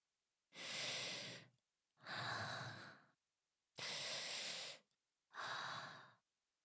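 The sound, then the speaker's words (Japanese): A person breathes deeply in four slow, drawn-out, airy breaths with even pauses between them. The breaths are soft and heard alone, with no speech. “ちょっと深呼吸しようか。”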